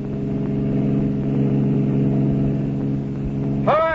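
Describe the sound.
A car engine drones steadily during a police chase. It holds a continuous mid-pitched tone at an even, fairly loud level for nearly the whole clip.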